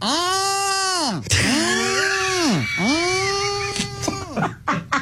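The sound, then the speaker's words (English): A human voice imitates mating turtles with long, loud, nasal moans that arch up and fall back in pitch, three in a row, followed by a few short, rough bursts. “So I got to see and hear with my own eyes what it is when turtles mate. And it sounds a little like this.”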